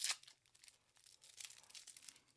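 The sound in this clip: Sticky plastic film peels off board game pieces with a sharp crackling rip at the start, then softer, intermittent tearing and crinkling bursts, all quiet.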